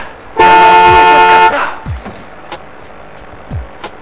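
A car horn sounds in one long, steady, loud blast of about a second on a German autobahn, followed by quieter traffic rumble and a few faint low swooshes.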